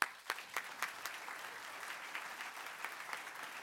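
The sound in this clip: Audience applause welcoming a speaker at a history lecture at the Virginia Historical Society: steady, dense clapping from a crowd, with a few sharp claps standing out at the start before it settles into an even patter.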